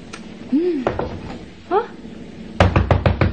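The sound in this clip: Someone bangs hard on a closed bathroom door while a tap runs inside, giving a quick burst of sharp, loud raps at the end. Voices are heard before the knocking starts.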